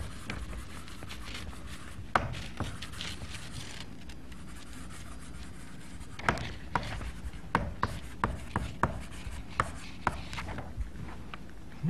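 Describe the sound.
Chalk writes an equation on a classroom blackboard during a lecture, making soft scratching strokes and many sharp taps, faint and irregular, with quiet gaps between clusters of marks.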